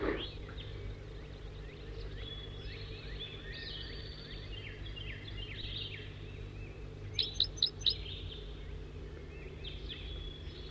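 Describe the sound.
Bird song from a recorded bird: faint chirps and trills run throughout over steady low background noise, with a short burst of about four sharper, louder notes in the later part.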